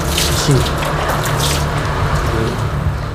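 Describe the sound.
Tap water runs as hands are washed in a traditional kitchen with a wood-fired stove, before coconut milk is made. It is a steady, bright splashing hiss lasting about three seconds.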